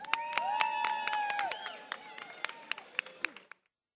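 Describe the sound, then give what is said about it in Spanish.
Audience applause and cheering greet a new contemporary dance company as it is introduced at an anniversary celebration. Sustained voiced cheers sit under scattered sharp claps that grow sparser before cutting off near the end. “Un fuerte aplauso.”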